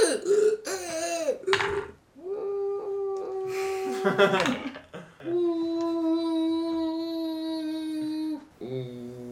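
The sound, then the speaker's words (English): A voice imitates a man coughing, hacking and wheezing: a few rough, throaty bursts give way to long, strained tonal wheezes, loud and alone. “And then you hear this hacking and this coughing and this wheezing.”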